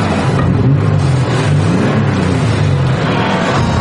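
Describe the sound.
Car engine running as the driver sets off slowly on a foggy, cold night, a steady, loud low rumble with a constant hum that holds through the whole stretch and carries no voices.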